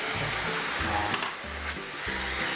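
Vegetables for japchae sizzle as they fry in a pan, a steady, bright crackling hiss that continues throughout with a low, rhythmic undertone.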